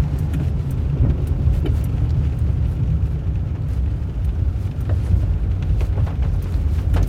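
A car drives in the dark past construction trucks at a new building site, with a steady low engine and road rumble that runs throughout without talking.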